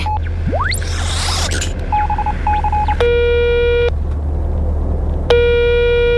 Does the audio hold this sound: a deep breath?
no